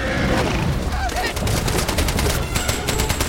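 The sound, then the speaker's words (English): Gunfire from a boat on a loch during an attack: many rapid, sharp shots in dense bursts, loud over a constant rushing background. “Walker shoots at Cruiser, who angrily turns on the boat.”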